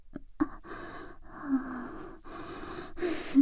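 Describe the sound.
Breathing close to the listener: a few soft breaths and snort-like inhales and exhales, separated by short pauses, with no talk.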